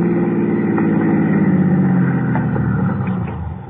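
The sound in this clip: A car engine hums as the vehicle pulls into a toll plaza, a steady low-to-mid drone that eases off slightly in loudness near the end.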